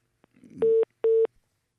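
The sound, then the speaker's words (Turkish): A telephone busy signal sounds after a call disconnects: two identical steady tone pulses, evenly spaced and fairly loud, just after a faint, brief rustle. “Bir problem oldu. Telefon bağlantısı kesildi.”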